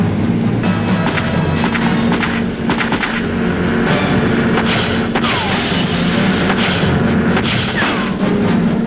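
Gunfire in a police shootout with fugitives fleeing in speedboats at sea: many sharp, cracking bursts keep breaking through a constant, dense, loud roar that fills the whole clip.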